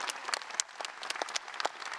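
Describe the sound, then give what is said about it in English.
Audience applause for the union president at a letter carriers' convention: dense, steady clapping from many hands that holds at a fairly even level throughout, with no voices standing out. “Give him another round of applause.”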